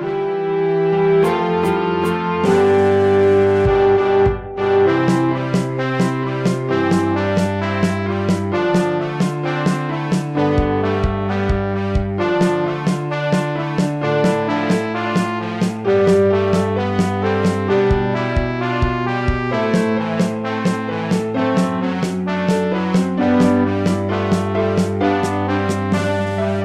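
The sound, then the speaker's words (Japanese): An original instrumental opening theme plays steadily throughout, with a rhythmic pulse of repeated notes over a shifting bass line and layered melodic tones. No voices are heard. “今聞いていただいたのはオリジナルでオープニングテーマというインストでした。”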